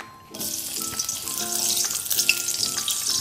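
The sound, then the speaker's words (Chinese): Scallion and ginger slices sizzle in hot oil in a heated wok, a loud, bright, crackling fry that starts abruptly and keeps spitting steadily with scattered pops and clinks, no talk over it. “开火热锅，倒入油，油热了，倒入葱姜片爆香”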